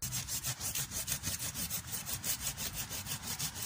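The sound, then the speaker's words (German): Sawing with a badly worn, frayed saw blade cutting partly into soil: quick, steady back-and-forth rasping strokes repeated many times, fairly faint, with no voices. “Die Säge ist komplett hin. Ihr seht da unten, das Sägeblatt ist schon komplett ausgefranst.”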